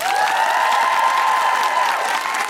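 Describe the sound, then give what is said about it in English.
Audience applause for a guest at the close of a live show, with loud, dense clapping and some cheering that stays steady throughout. “A big round of applause to the wonderful Dr. Anne-Marie Imafadon”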